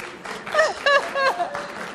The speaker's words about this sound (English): The ladies are clapping.